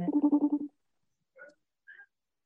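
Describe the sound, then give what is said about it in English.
Phone ringtone resembling a FaceTime call: a quick run of pulsing, buzzy tones, then after a short pause two brief, higher chirps, all alone against silence. “I thought that was my phone for a second. I'm looking around like, what should I? Sound like a FaceTime.”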